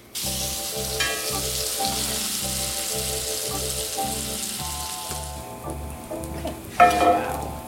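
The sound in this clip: Dough fries and caramelizes in a very hot pan with a continuous bright, crackling sizzle over a repeating rhythmic tonal pattern. The sizzle flares louder briefly near the end.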